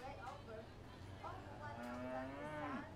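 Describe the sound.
A calf, a red-ribbon winner at a livestock show, gives one drawn-out moo that swells and then bends downward at the end, set against a murky background of other animal and barn noise.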